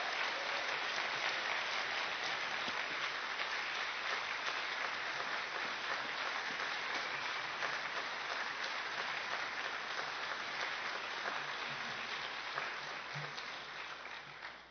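A church audience claps to welcome visiting guests, a sustained, even wash of applause that holds steady for a long stretch before tapering off at the end.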